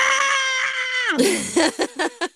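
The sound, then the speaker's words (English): A person imitates a band singer's scream: a loud, sustained, harsh high screech that slides steeply down in pitch, then breaks into several short, clipped yelps in a choppy rhythm. “most of the time, Eagle is screaming, going,”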